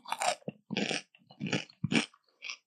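Crisp, wet crunches of someone biting and chewing a fresh cucumber during a mukbang-style eating session: a series of loud crunchy bursts separated by short silences, with no talking.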